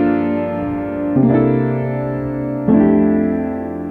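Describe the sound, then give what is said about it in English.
Piano chords voicing a ii-V-I progression in F major: G minor 7, C7, then F major 7. Three sustained chords ring out alone, each struck cleanly and left to decay before the next. “if we take a 2-5-1 progression, say, to stay in the same key, in F major, so we have three chords there. We'd have G minor 7, C7, and then F major 7. So if I play those kind of voiced on the piano, they might sound like this.”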